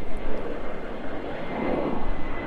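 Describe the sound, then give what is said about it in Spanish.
An airplane passing overhead during a startup Demo Day event in Colombia, far from the airport: a loud, steady low rumbling drone that holds throughout. “ahí va una avión”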